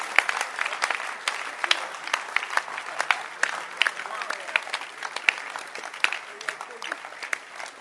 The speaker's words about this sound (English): Can you clap your hands for ministry?